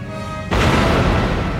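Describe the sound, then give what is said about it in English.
Explosion of a runabout spacecraft: a steady electronic hum breaks off into a sudden loud blast that spreads into a dense, sustained roar lasting to the end. “The runabout's been destroyed.”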